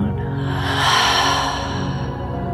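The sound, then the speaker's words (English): Big cleansing exhale in a guided meditation, a long breathy whoosh that swells near the middle and then eases off over about two and a half seconds above a soft, steady musical drone. “Breathe in your word of the year or the feeling you desire. Let it fill you up. And a big cleansing breath out.”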